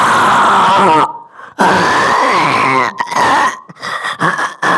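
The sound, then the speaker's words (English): A human voice imitates loud snoring: a few long, rasping, groaning snores, then shorter choppy snorts near the end. “this is the worst snoring I've ever heard on a human being in my whole life”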